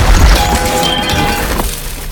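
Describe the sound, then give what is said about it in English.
Heavy crunching crash as a giant tree monster crushes a metal streetlight in its hand and stomps onto train tracks, bending the metal. A loud, dense smash with deep rumble holds steady throughout, easing slightly near the end. “It crushes a streetlight in its hand, then stomps onto train tracks, bending the metal.”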